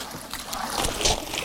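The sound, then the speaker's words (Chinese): Soft splashing and trickling of pond water as softshell turtle hatchlings are scooped out, a steady sloshing for a moment with no voices. “依家呢，我哋就捞嗰啲苗出嚟。”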